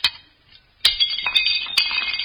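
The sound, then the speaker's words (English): Drinking glasses smashed in a fireplace: a few sharp, bright crashes, each followed by lingering ringing and the clink of scattered shards. “We drank and smashed our glasses in the fireplace.”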